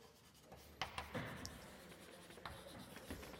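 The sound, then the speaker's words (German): Scratchy writing on a board during a maths lecture: several short, rough strokes, quiet and irregular, with brief sharper scrapes and no talk. “Also ich schreibe das nochmal.”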